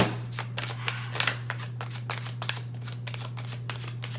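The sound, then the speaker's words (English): Tarot cards shuffled by hand: many quick, crisp riffles and soft slaps in an irregular rhythm over a faint, steady low hum, with no talking. “Yes, I will pick a few cards for you just so I can see what energies the universe...”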